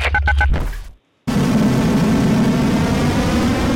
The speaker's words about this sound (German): Wir sind ready für den Takeoff. 3, 2, 1, Zündung.